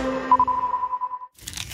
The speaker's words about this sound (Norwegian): Spiser du reker?